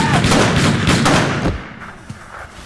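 A loud, rapid burst of gunfire gives many shots in quick succession. The volley then thins out and fades into a quieter tail.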